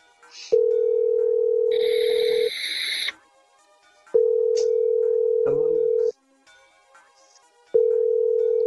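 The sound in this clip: A telephone ringback tone plays while a caller waits for pickup. Three long, steady, mid-pitched buzzing tones are separated by quiet gaps, with faint rustles and clicks in between.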